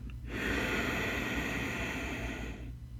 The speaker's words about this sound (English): So I want you to imagine that you're kind of fogging up a piece of glass or a mirror, and that sound that you make with your breath to let the warm air out. But we're going to make that sound with the lips closed, so it sounds like this.